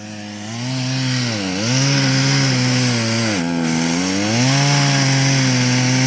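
Chainsaw cutting a notch into a tree: a loud, continuous engine drone whose pitch sags sharply twice as the chain bogs into the wood, then climbs back and holds high near the end.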